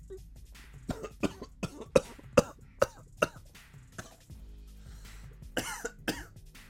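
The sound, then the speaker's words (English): Harsh coughing and choking from someone who has just breathed in wrong: many sharp, uneven bursts in a ragged run, with some throat clearing between them. “I just breathed in and choked. I didn't even swallow. I just breathed in and choked.”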